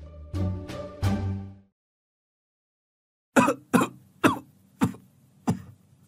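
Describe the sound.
An old man's deep, hacking cough: a few raspy, voiced coughs, then a silent pause, then five sharp, separate hacks at uneven intervals.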